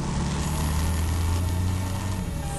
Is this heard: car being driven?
yes